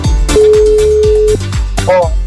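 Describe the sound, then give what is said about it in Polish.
A telephone call rings on the line, heard as one steady, clear ringing tone lasting about a second, set over a louder rhythmic music bed. “No i dzwonimy w takim razie do Janusza.”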